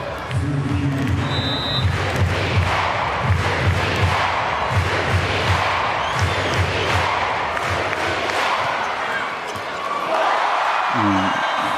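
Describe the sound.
Crowd noise fills a volleyball match as a serve scores an ace: a steady roar of spectators, with horn-like tones and a few dull thuds, while a commentator's voice carries over the din.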